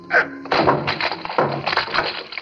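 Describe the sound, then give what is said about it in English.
Smashing open a locked tall white cabinet: a rapid cluster of crunching knocks, cracks and thuds of varying strength, irregular and harsh, with no talk. “Locked. Locked, Doctor. Smash it open. Open it. I do.”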